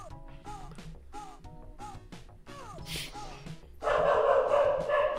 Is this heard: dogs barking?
yes

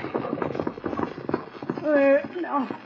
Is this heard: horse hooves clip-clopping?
yes

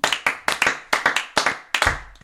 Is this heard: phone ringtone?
no

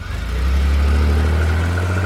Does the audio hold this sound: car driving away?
yes

